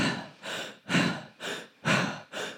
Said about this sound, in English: So the breath is it's a belly breath.